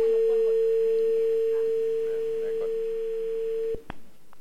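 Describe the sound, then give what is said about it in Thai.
A telephone tone plays during a call: a steady, single-pitched hum holds unbroken for several seconds, then cuts off with two sharp clicks. “เดี๋ยวมาโทรหาเอลิซที่ลงทะเบียนไว้นะคะ”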